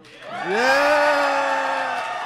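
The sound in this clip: Cheering from a comedy panel audience: a loud vocal whoop that rises in pitch, then holds steady and slowly fades.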